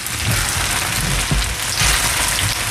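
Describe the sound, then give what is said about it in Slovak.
Spinach leaves and peas stew in a pan with pasta water and lemon juice, giving a steady, loud, even sizzle that runs unbroken throughout with no talk. “Teraz k tomu pridám špenátové listy a nechám ich podusiť. Pridám hrášok, citrónovú šťavu.”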